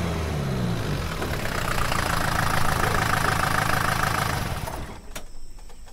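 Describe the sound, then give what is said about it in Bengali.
Jeep engine rumbling steadily as the vehicle comes to a stop, then dropping away near the end, followed by a brief sharp click. “জিপে উঠে গাড়িটা গড়িয়ে দিলেন পাকা রাস্তার দিকে প্রায় ঘন্টা খানেক পর গাড়িটা গিয়ে থামল চিত্রকর হেমেন্দ্র গাঙ্গুলির বাড়ির সামনে”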